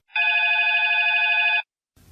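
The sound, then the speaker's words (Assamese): A telephone rings once to signal an incoming listener call: a single steady, bright electronic trill of about one and a half seconds, heard alone, followed by silence and a brief low rustle. “শ্ৰোতাৰ phone এটা আহিছে।”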